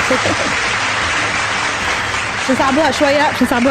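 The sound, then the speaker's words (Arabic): Studio applause follows a correct answer on a quiz show: dense, steady clapping fills the whole stretch, and a voice begins speaking over it near the end. “إجابة صحيحة برافو باش تصفيق”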